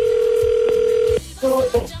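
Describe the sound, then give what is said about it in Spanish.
Telephone ringback tone on an outgoing call: a steady electronic tone holds for just over a second, then cuts off, followed by a couple of shorter tone bursts. “Ay, ya está sonando, Leonor, contesta”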